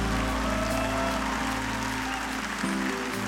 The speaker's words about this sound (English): Clap your hands and praise him.